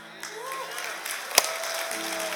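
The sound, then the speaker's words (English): An audience claps in a steady, dense patter of applause that fills the whole moment, with a voice speaking over it. “You're clapping”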